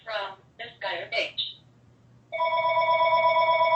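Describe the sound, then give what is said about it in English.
A telephone rings with a steady electronic tone that holds unbroken through the second half, after a few short, separate bursts of sound earlier on. “Yeah, sorry about that. I meant to get rid of that phone before we started.”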